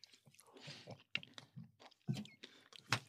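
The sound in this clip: Chewing a rice dish made with mango juice: faint, irregular moist smacks and soft mouth clicks, spaced unevenly with short quiet gaps.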